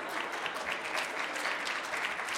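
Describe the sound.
Audience applause at a live storytelling show: many hands clap in a quiet, even patter that holds at a steady level without swelling or fading.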